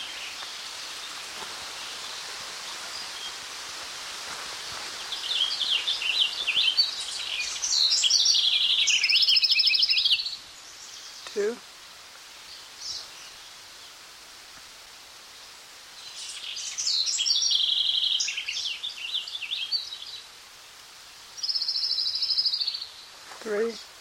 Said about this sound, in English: An orange crown warbler of the subspecies Arresta.